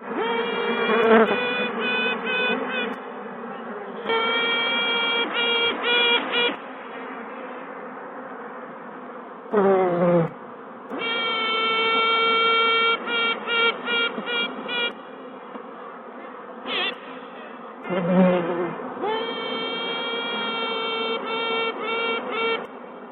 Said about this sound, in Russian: Пчелы жужжат, вибрируя крыльями.